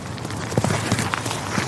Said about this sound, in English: Rosie! She's loping. Come on. Come on, Rosie. Yeah, she's galloping. Come on, let's have a fly past. Here she comes.